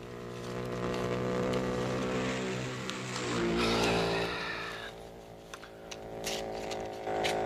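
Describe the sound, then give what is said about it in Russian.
A homemade motorcycle, assembled from parts, drives off. A steady droning engine swells into a louder rushing surge midway, then settles to a lower hum with a few faint clicks. “Семен Кружильный поехал. И э, сам смастерил мотоцикл. Собрал из частей жаб.”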